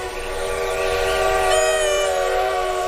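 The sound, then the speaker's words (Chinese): A train arriving sounds its loud horn, a steady harmonic whistle tone held for about three seconds over a low rumble of the moving train, with no voices. “是火车来了。”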